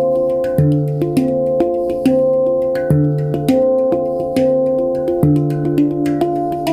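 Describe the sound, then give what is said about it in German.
A handpan rests on the lap and is tapped by hand, giving a slow melody of many ringing metallic notes. Each strike has a soft attack and a long, shimmering decay with sustained overtones, played alone. “Hast du schon mal von einer Handpen gehört? Nein! Das ist so ein richtig krasses Hippie-Instrument. Das Ding legst du dir so auf den Schoß und dann kannst du da so drauf rumtippen”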